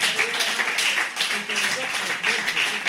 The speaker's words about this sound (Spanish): Un aplauso para vosotros.